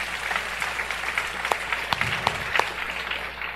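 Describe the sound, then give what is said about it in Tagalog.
An audience at a church service applauds: dense, steady clapping from many hands, with a few sharper, louder claps standing out throughout. “Sige, palakpakan po natin ang Panginoon.”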